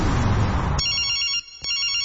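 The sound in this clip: A telephone ring heard while placing an outgoing call to a mobile: a burst of rough noise gives way to a high, bright electronic ringing tone that stops briefly and then resumes, with no voices.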